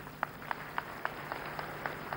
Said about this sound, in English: Clap for yourself.